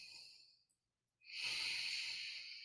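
Breathing in and out: a soft airy breath trails off into a brief silence, then a louder, long hissing breath follows and holds steady, with no talk.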